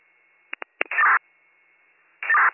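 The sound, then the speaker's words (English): Fire dispatch evacuation tones over a radio channel: three brief clicks, then two short, harsh tonal bursts separated by about a second of faint hiss, loud and thin. “Drop my evac tones. Receive, we'll drop your evac tone, 12 o'clock.”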